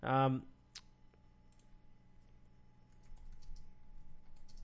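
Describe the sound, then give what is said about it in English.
Computer keyboard keys click faintly in light, irregular taps after a short thump at the start, with the typing growing slightly busier toward the end. “And I see these pauses are so I can type in these titles.”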